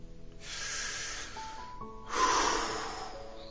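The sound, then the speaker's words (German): A deep breath in and out, taken on instruction while holding the head still: two long airy rushes with no talk, the second one louder and fuller than the first. “Konzentriere dich auf diesen Punkt und atme einmal tief ein und wieder aus.”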